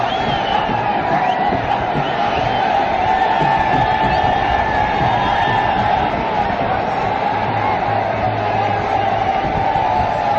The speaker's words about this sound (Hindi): भारतीय ध्वज थामे इंडिया इंडिया मुंबई चा राजा रोहित शर्मा और बूम बूम बुमरा के नारे लगाते ये फैंस बारिश में भी अपने चैंपियंस की एक झलक के लिए डटकर खड़े